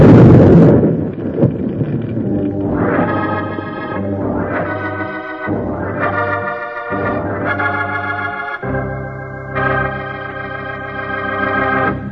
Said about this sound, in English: Shooting at the dynamite.